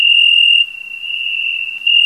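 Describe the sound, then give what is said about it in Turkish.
Crickets chirping loudly at night in Adana, Turkey, a swarm reaching about 100 decibels: a piercing, high, continuous trill that dips in loudness midway and then swells again, with no voices. “Yaklaşık 100 desibel sese sahip cırcır böceğinin sesleri Adanalıların tepkisine neden oluyor.”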